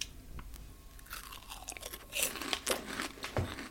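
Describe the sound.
Crunchy Snack a Jacks dipped in spicy tomato sauce being chewed, a few irregular crackling crunches that grow louder in the second half, with no talking.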